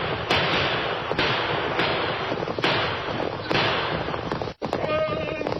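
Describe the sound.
Gunshots ring out during a radio drama shootout, several sharp reports cracking at irregular intervals over a dense, steady rumble of noise.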